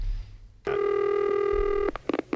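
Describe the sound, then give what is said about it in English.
A phone ring sounds on a call placed to a cable company: one steady, buzzing ring tone holds for just over a second, followed by a few short, clipped sounds. “This time we're going to use James Earl Jones to call a cable company.”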